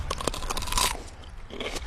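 Crisp crunching as someone bites into a fresh, crunchy golf-ball-sized radish, with loud snapping crunches first, then softer chewing and a final burst of crunch, with no talking.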